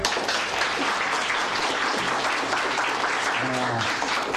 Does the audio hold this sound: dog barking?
no